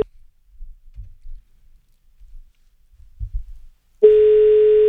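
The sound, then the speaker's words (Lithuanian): A steady telephone tone plays while a number is being dialed. It starts abruptly near the end after a few soft, low clicks and thumps, then holds one even, unbroken mid pitch. “Gerai, pabandykim dabar surinkti numerį.”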